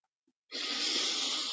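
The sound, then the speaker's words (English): A single long deep breath, a steady airy hiss lasting about a second after a short silence, heard alone without talk. “So nice deep breath.”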